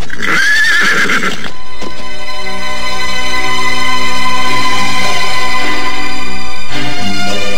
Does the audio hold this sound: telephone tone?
no

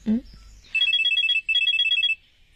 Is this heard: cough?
no

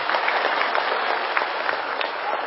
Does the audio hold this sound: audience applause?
yes

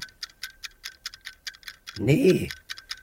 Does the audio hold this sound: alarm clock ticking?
yes

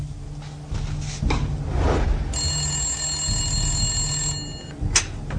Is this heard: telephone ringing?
yes

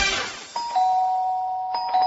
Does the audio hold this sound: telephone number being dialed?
no

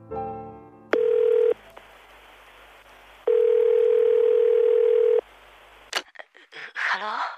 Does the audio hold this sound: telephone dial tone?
yes

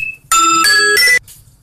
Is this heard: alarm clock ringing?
yes

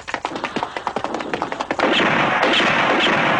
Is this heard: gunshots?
yes

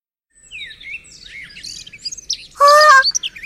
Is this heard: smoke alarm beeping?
no

